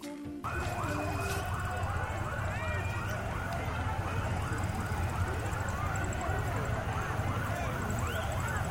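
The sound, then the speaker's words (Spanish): Police car sirens wail loudly and continuously, several overlapping, rising and falling tones sustained throughout with a dense noisy background. “Ahí se escuchan las bocinas policiales, ¿no?”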